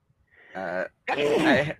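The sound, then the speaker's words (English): A human sneeze: a short voiced intake rises into a louder, breathy burst that carries on with some voicing, the whole sound over in under two seconds with nothing else around it. “Oh, what was that? That was a sneeze.”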